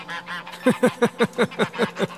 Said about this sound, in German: Die Gänse tun nichts, die schreien nur. Bei Menschen schreien sie besonders laut.